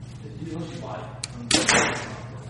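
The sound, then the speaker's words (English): Arrow shot from a Prime compound bow gives a single sharp, loud crack and thud midway, then a brief decaying tail over a low steady hum, with faint voices just before. “I like the draw cycle on this Prime a lot. Let me shoot one more. Hold up. I feel like there's a little hand shock in this guy, too.”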